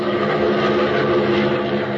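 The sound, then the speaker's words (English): A swift, oddly shaped propeller plane drones as its throttle is opened, giving a loud, continuous buzzing engine roar that holds a steady pitch throughout with no voices. “Opening the throttle, Batman sends his swift, oddly shaped plane zooming north”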